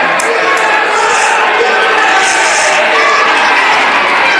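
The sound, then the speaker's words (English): A wrestling crowd chanting "USA" for an American wrestler at a pro wrestling match: a loud, dense crowd roar that holds steady throughout, with no clear break. “this crowd chanting USA for that proud American dope.”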